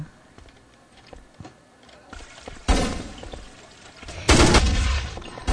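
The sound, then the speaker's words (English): Video game gunfire during a competitive bomb-mode shooter match: a few faint clicks and taps, then two loud sustained bursts of rapid firing, each lasting over a second. “As we pick it up with the USA, Keeper gunned down. A nice shot there.”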